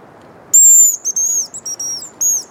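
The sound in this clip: A bird-call whistle imitates the song of a hazel grouse with very high, thin piping: one long opening note, then a string of shorter, sharp high notes with brief gaps.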